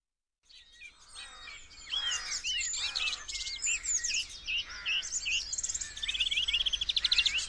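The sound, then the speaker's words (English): Garden birds in a dawn chorus: many overlapping chirps, whistles and trills from several birds, building steadily and growing busier and louder towards the end, with no talk. “The sounds of a wonderful dawn chorus recorded here this very morning.”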